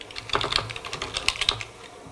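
Code is typed on a computer keyboard in a quick, uneven flurry of many crisp keystrokes, with no voices over it.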